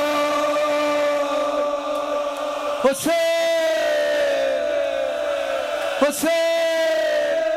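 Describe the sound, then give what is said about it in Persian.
Crowd shouting on the night of Ashura, massed voices held in long, steady, drawn-out tones that stay loud throughout, broken by two brief sharp bursts. “صدای فریاد شب عاشورا و”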